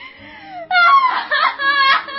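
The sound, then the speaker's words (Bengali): A woman crying and wailing in a dramatic scene: high, wavering voiced cries that open with a falling note, then break into louder, broken sobbing bursts. “কাঁদিস না রে বোন, কাঁদিস না”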